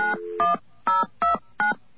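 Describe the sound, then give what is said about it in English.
Telephone keypad tones dialing a five-digit carrier access code: five short, clear dual-pitched beeps at an uneven pace, with quiet line hiss between them and no voices. “Okay, we're going to dial 10297.”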